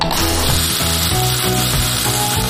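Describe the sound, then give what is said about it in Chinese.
Loud, continuous sizzling as a sauce of vinegar, light and dark soy sauce and starch slurry hits a hot wok. It is a dense, rough hiss with rapid crackle that stays steady throughout. “下面呢，我们先下汁儿，”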